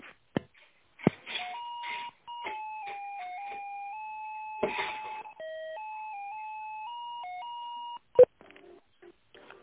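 A business telephone line connects as a call is transferred: a few clicks, then a long run of electronic tones stepping between pitches, broken by short bursts of noise, ending with a sharp click and faint line noise.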